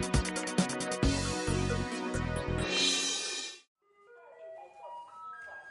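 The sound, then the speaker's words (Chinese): A garbage truck's electronic jingle plays as the truck approaches. The bright, loud tune runs for about three and a half seconds, then cuts away to thinner, fainter notes. “垃圾车要来了，赶快把垃圾拿去丢。”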